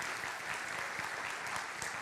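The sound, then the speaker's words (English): An audience at a morning worship service claps its hands in dense, continuous applause, a steady wash of many overlapping claps without clear breaks. “if you're just happy, glad to be here this morning, why don't you just clap your hands or say amen?”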